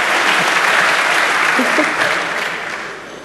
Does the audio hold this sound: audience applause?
yes